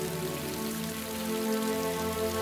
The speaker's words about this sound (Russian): Моросит дождь.